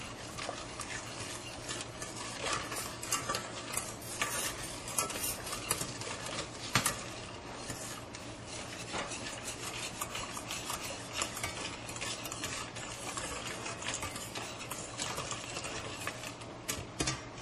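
Stirring of four eggs with a teaspoon of vanilla extract: steady, dense scraping and clatter run throughout without pause, over a constant low hum.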